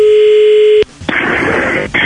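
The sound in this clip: A phone call's dial tone: a steady, single-pitched hum holds for under a second and cuts off abruptly. A loud, noisy hiss like line static follows, with one short break.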